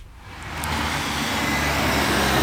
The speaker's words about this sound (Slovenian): Svojo pot v službo začenjam na lokalni avtobusni postaji ob glavni kranjski prometni žili cesti Staneta Žagarja.